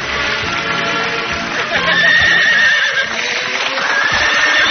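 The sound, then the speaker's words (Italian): A horse neighs loudly, with hooves clattering, as it is ridden through the main entrance into a hotel. The whinnying is shrill and drawn out and continues over the hoofbeats throughout. “Dall'ingresso principale sta entrando nell'albergo un uomo in smoking, su un cavallo verde locusta.”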